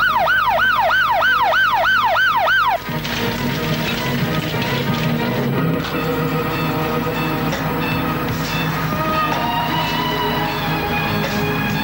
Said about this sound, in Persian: آمبولانس